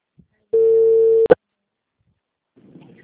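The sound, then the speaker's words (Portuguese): A telephone busy tone after a dropped call: one steady mid-pitched tone lasting under a second, cut off by a sharp click, then a short quiet gap and a faint low murmur. “minha ligação caiu.”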